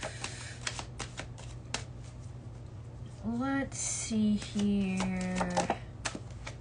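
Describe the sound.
Tarot cards shuffled and drawn during a reading, with crisp flicking clicks of card edges scattered throughout, while a person speaks briefly in the middle as the cards are handled.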